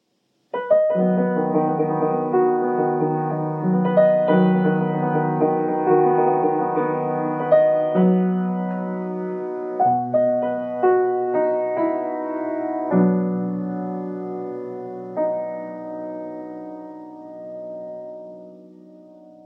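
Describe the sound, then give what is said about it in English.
An orchestra plays a slow, chromatic opera motif, the obsession theme tied to a main character: sustained, layered chords that swell and shift in a series of soft attacks, then gradually thin and fade toward the end. “Another motif strongly associated with Zalame is what we call the obsession motif, and it sounds like this.”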